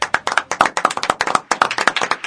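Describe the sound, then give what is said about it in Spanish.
Applause in a radio studio: a brisk, steady run of many sharp hand claps, fairly loud and dense throughout, with no voices standing out. “Un aplauso para los chicos.”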